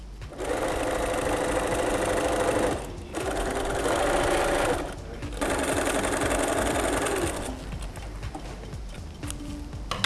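A sewing machine stitching canvas or cotton fabric runs in three stretches of fast, rattling stitching separated by brief pauses, then continues more quietly at the end.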